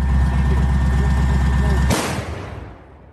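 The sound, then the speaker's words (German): A Panzerhaubitze 2000 self-propelled howitzer fires once. A steady, low, pulsing engine rumble leads into one sharp, loud blast about two-thirds of the way through, and the blast then trails off into a fading roar. “Was ihr gerade gehört habt, ist die Panzerhaubitze 2000. Eine Waffe, die Deutschland schon im Herbst 2022 an die Ukraine geliefert hat und die jetzt im Osten des Landes im Einsatz ist.”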